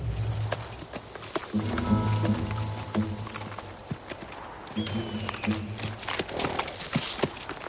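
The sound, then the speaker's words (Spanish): Steady clip-clop of hooves from a dark horse ridden in a Western film scene, a continuous rhythmic run of hoofbeats over low rumbling background noise. “El hombre de ojos claros se aproxima en un caballo oscuro a la rama de un árbol.”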